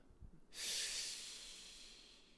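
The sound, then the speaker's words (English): A deep breath: one sudden, strong breathy rush of air begins abruptly and then slowly tapers off over a couple of seconds, heard alone. “Deep breath.”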